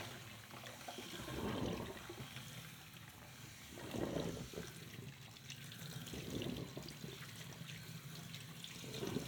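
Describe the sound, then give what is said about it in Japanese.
Warm water runs steadily while shampoo is rinsed out of someone's hair, a continuous splashing wash that swells in a few louder surges as the stream shifts, with no voices. “お湯の温度は大丈夫そうですか？はい、了解です。では、洗い流していきます。”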